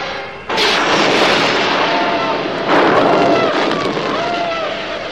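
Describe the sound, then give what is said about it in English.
Laser weapons fire as Imperial stormtroopers storm a Rebel cruiser: a loud, dense barrage of blasts and roaring noise begins after half a second and continues throughout, with faint falling tones threaded through the din. “In moments, Imperial stormtroopers invade the Rebel craft with a blaze of laser weapons.”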